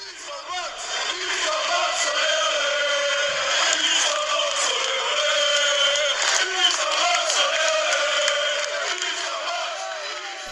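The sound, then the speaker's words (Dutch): Football crowd in Kortrijk chanting for a player after a strong cup match in January 2008. A loud, sustained chant of massed voices swells in and holds steady before easing at the end. “beginnen in Kortrijk, waar hij in januari 2008 na een sterke bekerwedstrijd tegen A-agent zo werd toegezongen.”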